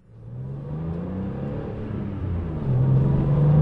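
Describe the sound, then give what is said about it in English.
A Porsche 911 sports car engine revving with a deep, low drone. It grows steadily louder, and its tone lifts and strengthens toward the end. No voices. “That's the sound of the cure for a lot of men's midlife crises. The Porsche 911 is the car that shows up in movies”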